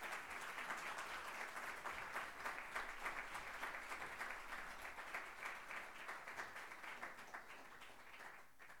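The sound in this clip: Audience applause welcomes a guest professor at the Harvard Club, a dense, steady wash of many hands clapping that holds at an even level throughout and eases slightly at the very end.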